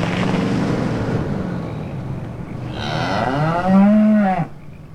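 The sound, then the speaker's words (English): A cow gives one long, deep moo with rich harmonics that swells in strength before cutting off, over a steady background rumble. “He turns toward the cow.”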